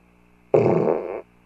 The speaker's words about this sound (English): Excuse me. I want to fart.